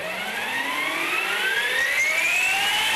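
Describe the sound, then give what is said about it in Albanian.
An electric motorcycle that hits 100 km/h in under three seconds whines through a transmission built to sound like a jet engine. The loud, steady whine climbs continuously in pitch as it speeds up. “Për ta bërë biçikletën tonë pak më të zhurmshme, ne përdorëm një sistem transmisioni që jep biçikletës zhurmën e një motori avioni,”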